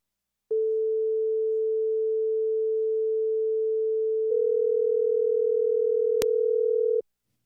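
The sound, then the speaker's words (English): A synthesized telephone ringing tone made by mixing two close-pitched pure sine waves. It starts as a steady tone, then shifts into a continuous beating, wavering hum that cuts off abruptly, with a sharp click just before the end. “The next one I'm going to show you is the sound of a call ringing. And I'm going to put this one to 480. So one is 440 and one is 480.”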